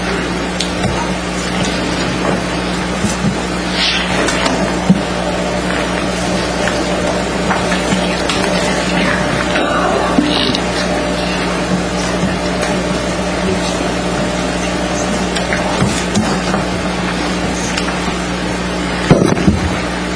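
Motorized projection screen being lowered during a meeting: a steady, droning motor hum runs unbroken for about twenty seconds, with faint rustles and a small knock near the end.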